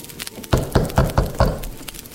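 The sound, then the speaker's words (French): Five firm knocks on a cottage door come in a quick, even rhythm. The sharp, loud thuds have slight resonance, and a softer tap comes before them. “on frappe à la porte.”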